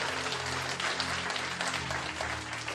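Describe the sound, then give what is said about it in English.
Applause from a church audience at the close of a weekend service, a steady, fairly faint patter of clapping that continues without a break. “Give yourself a hand. You made it.”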